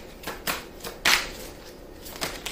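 Tarot cards being shuffled: a few soft, papery riffling bursts with one sharper, louder snap near the middle, separated by brief quiet gaps, with no talking.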